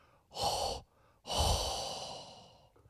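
Heavy breathing straight into a microphone: two loud, breathy gusts, the second longer and slowly trailing off, with no words.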